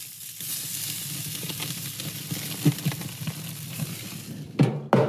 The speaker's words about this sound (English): This is the sound of my grill.